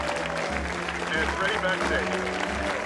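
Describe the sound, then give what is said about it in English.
Studio audience applause on a game show set, a dense, steady wash of clapping holding at an even level for the whole stretch, with a faint rhythmic low thumping beneath it. “Lights that read, applause, flash.”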